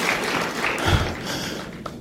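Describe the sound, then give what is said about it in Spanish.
Congregation applauding during a church service, a dense, steady clatter of many hands with a single low thump near the middle and no clear talk over it. “Dale ese aplauso al Señor si se lo vas a dar con todo tu corazón a Él, a Él. Cuando usted aplauda, hágalo con mosh, como dicen los chapines.”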